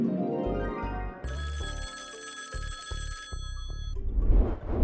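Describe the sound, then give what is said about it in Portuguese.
A short segment jingle built around a phone-call theme: upbeat music with a shrill telephone bell ringing steadily through its middle, then fading back into the music. “Roda a vinheta.”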